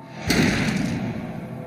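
A single sudden thud from a Roman ballista shot bursts out abruptly, then trails into a broad, rushing noise that continues to the end.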